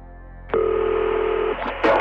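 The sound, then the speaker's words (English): A telephone line tone at the start of a call to a sheriff's office in 1992: a steady, mid-pitched tone of about one second over a constant low hum, followed by a few short clicks. “On a fall evening in October of 1992, West Liberty Sheriff's Office got a terrifying phone call.”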